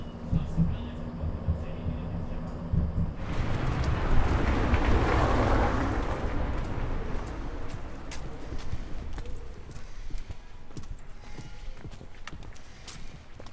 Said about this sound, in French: On est rentré dans un tram où en fait eh ben, il n'y a plus les petites croix rouges, donc on peut s'asseoir où on veut.